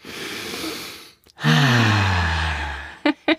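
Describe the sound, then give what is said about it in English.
Deep breath in during a guided breathing moment: a long, airy inhale, then a voiced, sighing exhale that falls in pitch, followed by two short breath sounds. “It really does feel good to take a deep breath.”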